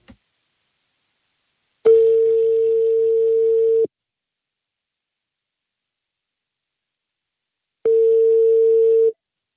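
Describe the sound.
Telephone ringback tone while a call is being placed: two long, steady, mid-pitched tones of about two seconds each, separated by a long silent gap, with nothing else heard.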